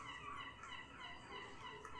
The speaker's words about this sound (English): Goddamn gulls everywhere!